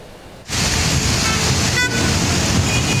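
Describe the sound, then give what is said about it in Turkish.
Steady roar of heavy, jammed traffic on Istanbul's E5 highway at Haramidere during rain, starting abruptly after a quiet moment, with a brief car horn toot sounding over the dense road noise. “İstanbul'da trafik durma noktasına geldi. Görüntüler E5 Haramidere mevkiinden.”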